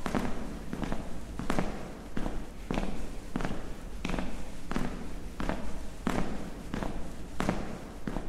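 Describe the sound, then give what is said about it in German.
Footsteps walking down the central aisle of a church between rows of wooden pews, a steady, even pace of firm, sharp steps, each with a short fading decay. “Komm, weiter geht's. Am besten wir gehen mal durch den mittleren Gang nach vorne.”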